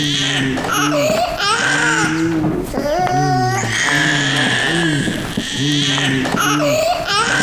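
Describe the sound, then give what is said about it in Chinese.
A baby cries loudly in repeated high, wavering wails broken by short breaths, and the sobbing bursts go on with little pause throughout. “不哭了啊。”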